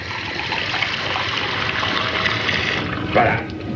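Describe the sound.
Water poured into a glass to mix a drink with lemon: a steady, rushing splash of liquid, fairly loud and continuous, swelling slightly just before it ends.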